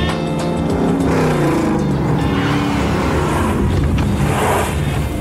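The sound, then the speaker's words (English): A car driven fast in stunt driving, its engine roaring loudly and continuously throughout, with a harsh, sustained drone of motor and road noise. “yes, the CIA really does teach us how to drive like this”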